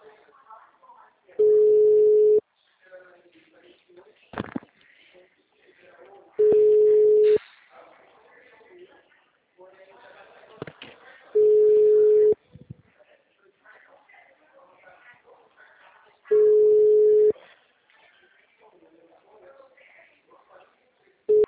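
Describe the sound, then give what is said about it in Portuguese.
Telephone call tones on the Claro mobile network: four long, steady beeps are regularly spaced several seconds apart, with low noise between them, and a fifth beep starts at the very end. “Ligação.”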